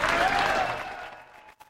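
Applause from the audience of a live country band recording: a loud burst of clapping that thins and fades away within about a second and a half, ending in near silence.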